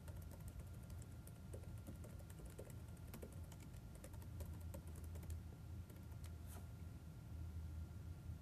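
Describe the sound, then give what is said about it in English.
Faint typing on a computer keyboard as login credentials are entered, many scattered soft clicks over a steady low hum. “Now it's asking me for my credentials for my Azure Rights Management Service. So let's type in those creds.”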